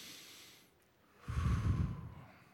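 A deep breath is taken together by a group at a Christmas Eve service: a faint airy inhale, then a louder, breathy rush of exhaling that swells and fades, with no talking.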